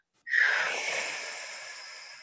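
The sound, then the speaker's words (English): A group exhales together during a guided breathing exercise. A single sudden, forceful breath out starts sharply, then trails off in a long, airy hiss over about two seconds. “let's go ahead and exhale everything out.”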